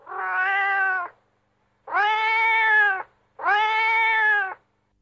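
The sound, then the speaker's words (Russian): A sad cat sitting on a road meows three times. The meows are long, drawn-out and mid-pitched, separated by short pauses, and heard clearly on their own. “Шли они, шли, и вдруг видят, сидит на дороге кот. Печальный сидит, невеселый.”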